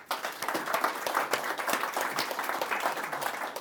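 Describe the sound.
Applause from an audience welcoming a guest to the stage at a live business show: many overlapping claps form a fairly quiet, continuous patter with small swells.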